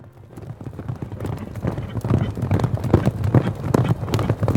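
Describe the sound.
Horses gallop through a forest, their rapid, overlapping hoofbeats thudding in a steady driving rhythm that grows louder after the first second.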